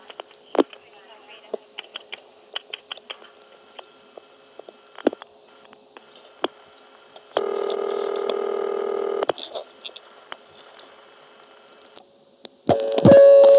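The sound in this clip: Telephone dialing at a payphone: scattered sharp clicks, a steady buzzing tone held for about two seconds partway through, and a louder tonal burst at the end.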